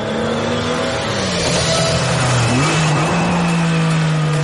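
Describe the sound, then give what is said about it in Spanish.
A sports car speeds down an avenue, weaving through traffic, with a loud, continuous engine roar. The engine note sags partway through, then jumps back up and holds steady. “El deportivo de Gabriel corre a toda velocidad por la avenida. Sortea con audacia suicida al resto de vehículos.”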